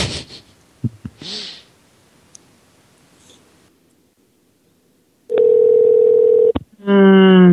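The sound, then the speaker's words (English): A telephone line tone sounds while a number is dialed: a loud, steady electronic tone holds for over a second, breaks off briefly, then a second tone follows. Faint speech and scattered noises come before it. “Okay, so next number here. You can dial another number here, folks.”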